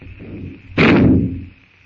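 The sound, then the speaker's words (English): A single gunshot rings out in the jungle, a sudden loud, rough blast that rumbles and fades over about half a second, with a steady high-pitched hum continuing before and after. “With the shot, the jungle noises stop.”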